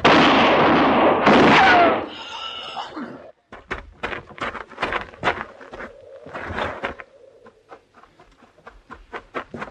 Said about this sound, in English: You shot him.